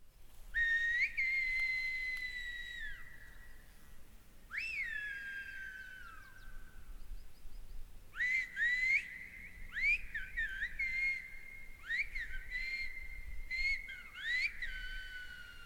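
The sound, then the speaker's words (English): Two women exchange whistled Spanish on La Gomera in several long, piercing phrases. Some notes are held steady and others swoop sharply up and down, with short pauses between turns. “It's actually Spanish. They are whistling in Spanish, right? Like, it's actual words.”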